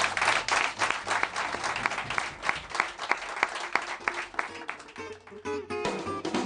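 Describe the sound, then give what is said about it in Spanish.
Audience applause for a guest: dense, steady clapping with many sharp hand strikes, thinning out toward the end as a faint tonal sound enters. “Con este aplauso de los oyentes para José Manuel.”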